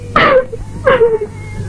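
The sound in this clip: A woman crying, with two loud sobbing wails that each slide downward in pitch, separated by a short pause.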